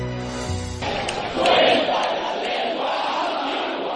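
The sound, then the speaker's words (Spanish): Football crowd roars at the Ramón Sánchez Pizjuán stadium as Sevilla fans celebrate reaching the semifinals, a broad sustained swell of cheering that follows a brief tonal note at the start. “este era el sonido del Ramón Sánchez Pizjuán ayer después de que el Sevilla volviera a meterse en semifinales.”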